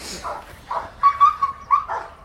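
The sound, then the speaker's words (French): A possessive dog at gendarmerie obedience training gives several short yelps and high whines in quick succession. The sounds are fairly faint and come as separate bursts, with no voices. “C'est le chien qui est très possessif hein, à l'objet.”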